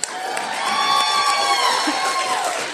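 An audience cheers and whoops for the pregnant people in the crowd at a live comedy show, with loud, steady cheering and shouts lasting throughout.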